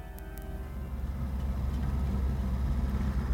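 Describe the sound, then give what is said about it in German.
A taxi ride home produces a steady low engine and road rumble that holds at an even, moderate level throughout, with no voices. “Ich habe absichtlich ein Taxi genommen.”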